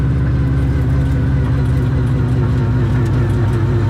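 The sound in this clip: Steady engine drone of a turbocharged car driving slowly around in a small loop, a continuous mid-pitched hum with low rumble and no breaks, heard alone without talk.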